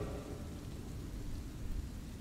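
Thunder in a storm, a continuous low rumble with faint hissing noise over it, fairly quiet and steady for a couple of seconds with no sharp cracks and no voices.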